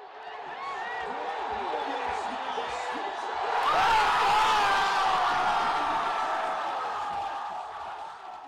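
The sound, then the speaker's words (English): Crowd cheering and roaring in celebration of the Washington Nationals winning the baseball National League pennant. Dense, continuous massed voices swell louder near the middle, then ease slightly while staying steady to the end. “That was the sound of victory, specifically victory in the National League pennant for the Washington Nationals, sending them to the World Series for the first time in the recent history of their franchise.”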